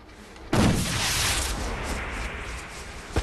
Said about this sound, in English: Lex aims a flare gun into the air over the drop and fires.